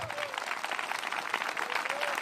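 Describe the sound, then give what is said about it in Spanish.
An audience at a Spanish-language church service claps for the Lord. The applause is steady and dense, with a voice heard over it. “Bueno, dale un aplauso al Señor entonces.”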